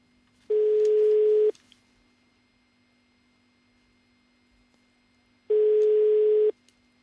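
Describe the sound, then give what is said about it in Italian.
A telephone rings twice, each ring a buzzy tone lasting about a second, separated by a long silent pause. A faint steady low hum runs underneath throughout. “Squilla il telefono.”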